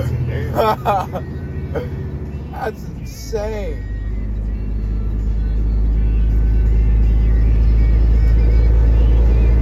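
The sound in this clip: Deep engine rumble of a new semi truck slowing down with its engine brake, a low droning growl that builds steadily louder and heavier after a few seconds of excited talk inside the cab.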